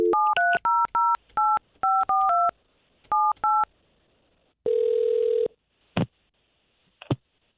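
Telephone number dialed with DTMF touch-tones: a brisk string of many short electronic beeps at shifting pitches, then a single long buzzing ring tone and two sharp clicks on the line.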